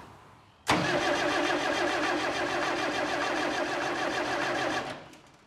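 A car engine cranking without catching: the starter churns in a loud, steady grinding whir for about four seconds, then cuts off abruptly.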